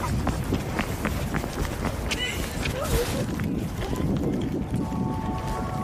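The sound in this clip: Quick, hurried footsteps of two people walking fast give a rapid run of steps under a steady rushing, wind-like noise.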